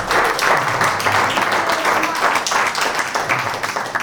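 Dense, loud applause rises from a comedy show audience welcoming a comedian to the stage, a steady roar of many hands clapping that continues throughout.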